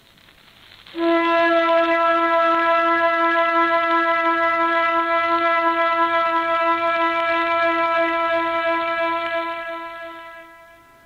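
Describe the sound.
An air-raid all-clear siren sounds as one long, steady, harmonically rich tone. It holds the same pitch for about nine seconds, then fades at the end.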